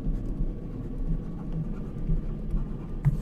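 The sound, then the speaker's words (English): Scratchy strokes of a pen or marker drawing and writing on a board, a continuous low, faint scraping with small bumps from individual strokes, with no talk over it. “I'm gonna draw it in. And I'll write it down.”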